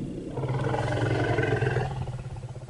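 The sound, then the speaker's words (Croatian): A low, rumbling call of an African savanna elephant, said to contain a name: one loud, sustained harmonic rumble lasting about two seconds before it tapers off. “naučnici kažu da ovo mumlanje sadrži ime. Kada slonica iz afričke savane, koju naučnici zovu Margaret, čuje sljedeći audio zapis, ona odgovara na njega.”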